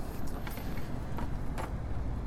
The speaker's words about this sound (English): get back into my vehicle here and out of the noisy sea of engine sounds outside